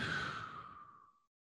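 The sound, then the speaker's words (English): A deep breath out: a single soft, breathy exhale that starts full and gradually fades away into silence, faint and alone. “Take a big breath in and then a big breath out.”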